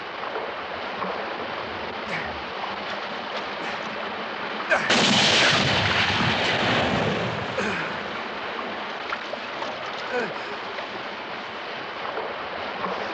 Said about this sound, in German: Warum hast du nur auf die Hand geschossen?